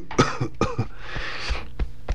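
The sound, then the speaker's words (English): Throat clearing in several rough, cough-like bursts, loud and separated by short pauses, with a longer raspy stretch in the middle and no talk. “excuse me, I always gotta clear the throat.”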